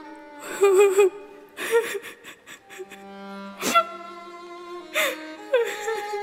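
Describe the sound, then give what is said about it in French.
A young girl crying in several bursts of whimpering sobs and sharp gasping breaths, with pitched wavering cries between short pauses. “Arrête de pleurer, voyons. J'essaye, mais... J'y arrive pas.”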